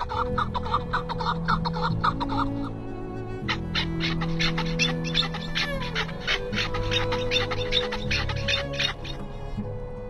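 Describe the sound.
A flock of partridges calls to each other with squeaky voices after landing in a field, giving many rapid, high, clucking chirps in repeated bursts over a steady low background.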